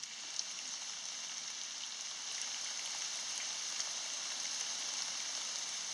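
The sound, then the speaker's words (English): Rain sounds used as calming nature audio: a soft, continuous hiss of rain on a surface with faint scattered drop ticks, holding a steady level throughout. “And then there's also rain sounds, which I really like.”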